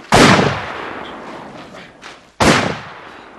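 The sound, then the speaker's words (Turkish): Artillery shell fired and exploding nearby on a battlefield: two sharp, loud blasts, each trailing off in a long rumbling decay, with a softer thud between them. “Aman, aman yere yatın, top vermişti.”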